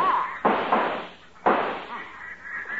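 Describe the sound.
Two sharp gunshots during a duck hunt, loud bangs about a second apart, each trailing off in a short decaying tail, with voices talking around them.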